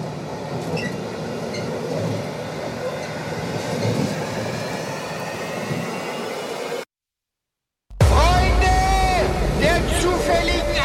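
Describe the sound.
A train starts to move off with a steady, loud rumble of rolling wagons. After a brief silence, a louder stretch follows with high, squealing tones over the rumble.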